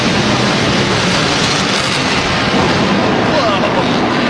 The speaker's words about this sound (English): You still heard that bad boy go. One more time, please. He says the bomb derived from B-1 is one of the fastest bombers ever built, capable of flying at more than 900 miles per hour.